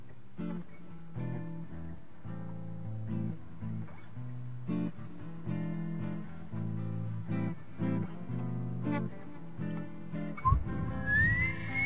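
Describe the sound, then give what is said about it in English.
A person whistles a tune into a microphone, holding and changing notes steadily for about twelve seconds, with a sharper high note near the end. “Hard not to whistle and blow into the microphone like.”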